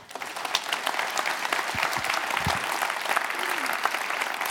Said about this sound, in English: I wanted to have everyone give him a warm welcome.